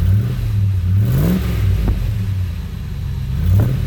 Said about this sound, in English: That's definitely a V8, but it doesn't sound like any import that I've ever heard.